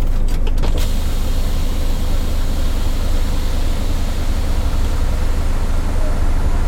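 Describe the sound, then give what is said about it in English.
A truck raises its semi-trailer landing legs once the fifth wheel is locked, producing a steady, continuous motorized hum over a constant low engine rumble, with brief rattling at the very start. “Now it's asking me, do I want to lift the legs? Because it's already locked the fifth wheel in place. So yeah, we're going to lift the legs.”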